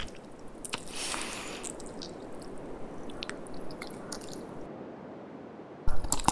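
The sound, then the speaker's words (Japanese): Wet squelching of a hand squishing and stirring intestines inside a belly: continuous soft, slimy squishes and drips, ending in a brief louder burst. “私の手がお前の腸をつかみ、手繰り寄せ、かき混ぜる。”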